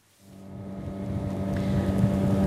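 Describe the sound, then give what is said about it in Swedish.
A motorboat engine drones as the boat travels on the Patía river near the coastal town of Tumaco in southern Colombia, swelling from near silence into a steady low hum with rushing wind noise. “Nu åker jag på floden Patía i södra Colombia, i nära kuststaden Tumaco.”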